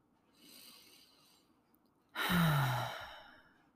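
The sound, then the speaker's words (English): Deep breathing during a guided relaxation exercise: a soft, airy inhale, then a louder sighing exhale whose voiced tone slides down in pitch before fading. “we can take another couple deep breaths in.”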